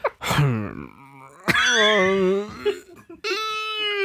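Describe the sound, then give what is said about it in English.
A voice imitates a drawn-out Garrison Keillor-style sneeze with several long, moaning voiced tones broken by a sharp burst of breath, then a final sustained vocal note. “what's the perfect Garrison Keillor sneeze? Maybe you got one. I'm working on it. I got one, yeah. You go ahead. This is my first instinct would be like,”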